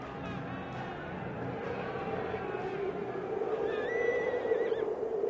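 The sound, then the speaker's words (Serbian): Riderless horses neighing across a deserted battlefield, a high wavering whinny rising out of a steady low rumble in the second half, with no talk. “I samo se čuo njisak pustih konja, što se bez junaka po polju vijahu.”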